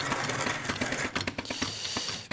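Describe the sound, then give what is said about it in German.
A coffee grinder grinds beans to a fine espresso grind at a slow mill speed, giving a steady, gritty mechanical crunching with irregular sharper cracks scattered through it, fairly loud and without voices. “Und das ist natürlich klar, weil wir so einen feinen Mahlgrad für den Espresso ja brauchen. Ist ja die Geschwindigkeit der Mühle auch entsprechend langsam.”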